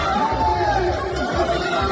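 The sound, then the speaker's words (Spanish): Crowd chatter during a street altercation in Eibar, where people tried to stop police from making arrests in a nightlife setting; a steady babble of overlapping voices runs without a break. “Este es el sonido de uno de los altercados en Eibar.”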